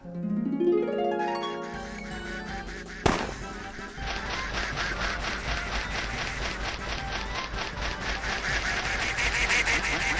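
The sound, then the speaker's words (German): Duck quacks from a duck-catching video game where the player must find the ugly duckling, following a rising tonal jingle and one sharp bang, then many rapid quacks over busy, steady game noise. “diese Ente klingt dann so. Das hässliche Entlein.”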